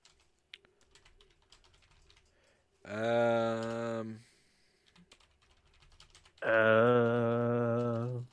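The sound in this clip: Rapid, light keystrokes clatter on a computer keyboard as someone types a ChatGPT prompt. The typing is interrupted by two sustained stretches of voice that drown it out.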